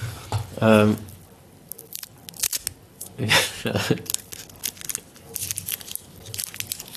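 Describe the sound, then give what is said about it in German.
A candy wrapper being slowly unwrapped, giving irregular bursts of faint crinkling and crackling spread over several seconds, with a brief voice near the start. “wenn man langsamer einen Bonbon auspackt, dann wird es nicht leiser, sondern einfach ist es länger laut”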